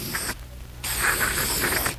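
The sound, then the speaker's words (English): Aerosol spray from a can of Otis bathroom cleanser aimed at a bloodstain: a short loud hiss, a brief silence, then a longer sustained hissing burst. “a fresh can of Otis bathroom cleanser. All right, let me have it. Now watch. I spray it on the bloodstain.”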